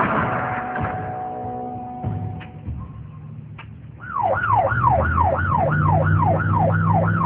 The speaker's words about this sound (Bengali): একা এলো না, সঙ্গে নিয়ে আসলেন এক গাড়ি পুলিশ।